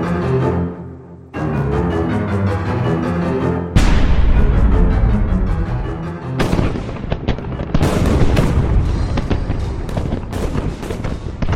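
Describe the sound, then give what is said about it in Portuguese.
Heavy explosions of an artillery bombardment across the Somme front in July 1916, at dawn. A few sudden loud blasts break in and merge into a dense, continuous roar of rumbling detonations with no pauses. “volta das seis e meia da manhã, eclodiu um bombardeio sem paralelo contra toda o fronte, desde o norte do Acre até o sul do Somme”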